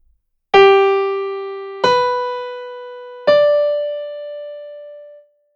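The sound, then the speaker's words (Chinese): A melody built on a triad climbs in leaps of a third through three struck notes, each ringing and fading, with the final note sustained until it dies away. “三和弦是三度跳进， 这是三和弦的声音。”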